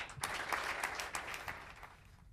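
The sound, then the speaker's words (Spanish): Teammates applaud at a Deportivo Alavés footballer's farewell: faint, steady clapping from a group that holds evenly and then tapers off at the end. “de esta manera se despedía Víctor La Guardia, con los aplausos de los que han sido sus compañeros hasta el día de hoy.”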